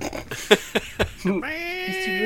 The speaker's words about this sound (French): Attends, il y a le chat qui me fait chier.